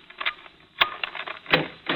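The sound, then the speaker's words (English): Skeleton keys are tried in a door lock, giving a few fairly faint metallic clacks and rattles at irregular intervals. “we bought our skeleton keys, didn't we? Yeah. Standard A1 detective agency equipment. One of these should do it.”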